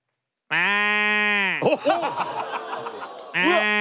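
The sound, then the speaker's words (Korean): A human voice imitates a goat bleating: a long, nasal, steady bleat, then laughter, then a second imitated bleat that begins just before the end. “일단 염소 소리. 염소. 염소 앞에서 바로 배운 거야.”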